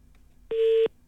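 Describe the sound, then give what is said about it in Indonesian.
A telephone line drops during a radio call-in, marked by a single steady electronic tone about a third of a second long, clean and alone against near silence. “Terputus juga talian kita.”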